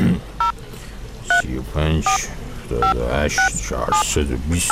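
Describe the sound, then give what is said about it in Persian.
Touch-tone telephone keys being dialed, a string of short beeping dual tones at uneven intervals, with a voice talking between the key presses. “بذار من این شماره اینا رو بگیرم”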